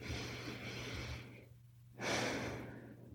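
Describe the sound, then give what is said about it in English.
A slow, deep breath drawn in and then released during a guided body-scan meditation. A long, airy inhale fades to a short pause, followed by a stronger, breathy exhale, with no talk over it. “Take a breath in. And exhale it out.”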